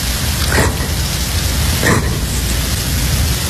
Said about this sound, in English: Oh, God, it's raining again.